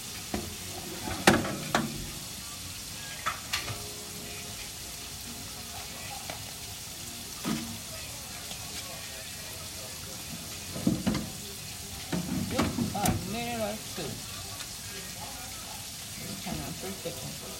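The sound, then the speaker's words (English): French fries frying in hot oil give a continuous sizzling hiss, broken by scattered clinks and scraping knocks as the fries are stirred or moved. “I'm gonna cook these fries for a few more minutes.”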